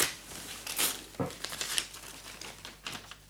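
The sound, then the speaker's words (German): A letter is torn open with sharp paper rips and crinkling rustles, a few quick tears followed by softer crumpling, faint and with no voices. “Höre, Luise, ich erbreche den Brief.”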